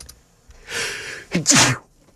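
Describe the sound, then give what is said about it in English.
One loud human sneeze: a hissing intake of breath builds, then a sharp, bright burst of air bursts out and fades quickly into quiet. “Sorry for sneezing.”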